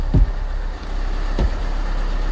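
A bus engine idles as passengers board in a parking lot in the early morning, a steady low rumble broken by two brief dull thumps.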